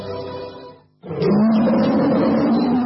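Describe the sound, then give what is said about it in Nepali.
A tiger roar, loud and rough, bursting in after a brief drop to near silence and holding steady for nearly two seconds. A shorter stretch of quieter sound comes before it. “गर्जन सधैं बाघ झैं radio tiger 99.2 megahertz.”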